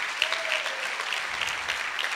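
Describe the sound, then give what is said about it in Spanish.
A Spanish-speaking church audience applauds in praise of the Lord, a steady dense patter of many hands clapping at an even, moderate level from start to finish. “Démosle un aplauso al Señor.”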